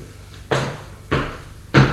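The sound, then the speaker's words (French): Door-closing thumps as people enter a home, three sharp, fairly loud knocks of wood, evenly spaced about half a second apart, each with a short decaying tail and no voices. “Ils entrent et ferment la porte.”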